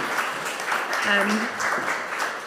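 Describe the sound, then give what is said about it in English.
An audience at a church talk gives a round of applause, a steady wash of many hands clapping throughout while a voice speaks over it. “Thank you, Roz. Let's give Roz a round of applause.”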